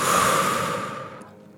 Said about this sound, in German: Und atme noch einmal tief ein und tief wieder aus.